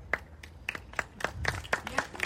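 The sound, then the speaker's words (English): Applause from a small crowd, heard as a faint, thin run of distinct hand claps in a steady rhythm. “yeah, applause.”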